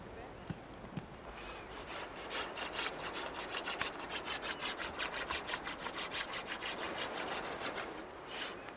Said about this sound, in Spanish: El raspador funciona así o así.